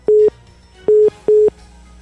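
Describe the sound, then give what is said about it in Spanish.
A telephone busy tone sounds after a call is cut off: three short, steady, low-pitched beeps, the last two closer together, with no talk. “creo que se cortó la llamada telefónica”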